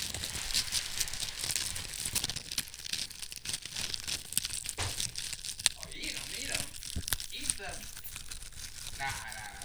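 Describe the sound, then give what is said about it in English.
Crunching of spicy Utz Hot Chips, potato chips eaten by the big handful, with many crisp, dense crackles and crunches in a continuous stream at moderate loudness. “Utz Hot Chips. Let's go. Bit a big old handful. Okay, here we go. ASMR right here.”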